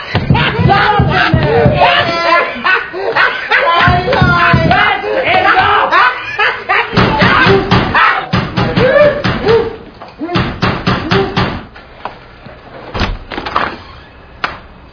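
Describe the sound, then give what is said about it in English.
Heavy pounding on a ceiling during a noisy rehearsal: loud, repeated thuds and bangs mixed with shouting voices, in irregular bursts with brief gaps. “Sounded like you were pounding the hell out of the ceiling.”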